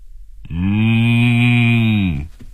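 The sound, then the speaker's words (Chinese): A cow moos once, long and loud, over a telephone line. It is a steady, sustained low call lasting nearly two seconds and heard alone. “一声清晰的牛叫声从电话里传了出来，刘丽丽很惊讶。啊，怎么有牛啊？”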